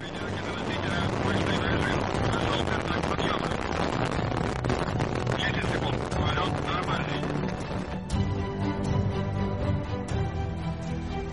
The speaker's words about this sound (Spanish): El cohete Proton despega.